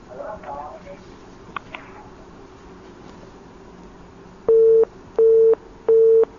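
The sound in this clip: Busy signal after a telephone call is cut off: three identical, evenly spaced steady beeps at the end, following a brief faint voice and low line noise.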